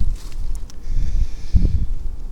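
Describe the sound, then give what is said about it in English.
Wind gusts at a creek, heard as a low, rough rumble buffeting the microphone, with faint rustling and a stronger gust shortly past the middle. “as we go down into the creek, we're just stepping into more wind.”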